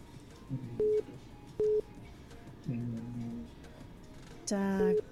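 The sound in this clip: Telephone tones as a call comes in on a radio station's call-in line: two short, steady beeps, then a louder, richer electronic tone burst at the end, over low background noise.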